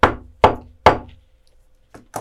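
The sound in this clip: Knocking on a door: three loud, sharp raps evenly spaced, then a pause and two fainter, quicker knocks.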